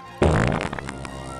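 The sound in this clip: A loud, rough fart comes from a soldier straining during military training. It bursts in abruptly with a deep rumble and then trails off more quietly for about a second, with no one talking over it.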